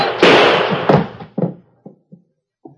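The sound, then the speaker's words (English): A sheriff's gunshot rings out: a loud, sharp blast with a long, noisy decaying tail, followed by a few fainter thumps. “I hated to do it. But it was either me or him. You shot in self-defense, Sheriff.”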